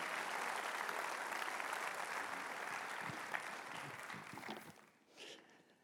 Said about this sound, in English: I want you to put your hands together and I want you guys to welcome Leif Hetland to Beltway Park Church this morning.